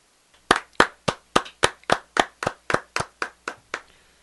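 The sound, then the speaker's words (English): Two hands clap alone in a steady, evenly spaced series of many sharp, loud claps, each a crisp slap with a quick decay and clear silence between them. “Is that a really conscientious clap? Or I was very aware. In fact, that was the sound of two hands clapping by themselves in the middle of the forest.”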